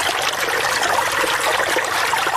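Water flows steadily as a farmer irrigates his six-jarib wheat field in Afghanistan, making a continuous, even trickling hiss with no breaks and no voices.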